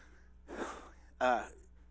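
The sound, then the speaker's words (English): A quick intake of breath from a person pausing while reading scripture aloud, heard as two short, faint, airy bursts separated by near silence. “Let me take a breath.”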